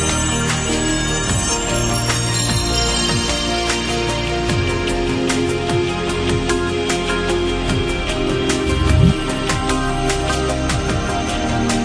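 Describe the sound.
Voting bell rung in a parliament chamber: a loud, dense metallic ringing that continues without a break for about twelve seconds, with no voices over it.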